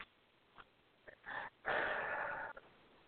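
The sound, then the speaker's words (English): A single quiet breath drawn in through the nose, then let out through the mouth. A short, airy inhale is followed by a longer, louder hissing exhale. “And then just one final breath in through your nose and out through your mouth again.”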